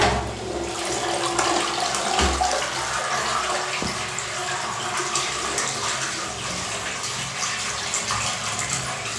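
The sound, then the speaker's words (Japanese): A toilet flushes with a loud, steady rush of water that fills the whole clip without a break. “じゃあおしっこ流します。”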